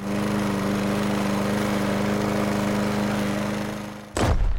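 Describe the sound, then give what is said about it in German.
Steady droning of a mowing machine engine runs for about four seconds, then an abrupt loud crack cuts in near the end, like a stone thrown up by the mowing work. “Und da habt ihr auch ganz richtig erkannt, dass es natürlich um Steinschlag durch Mäharbeiten ging”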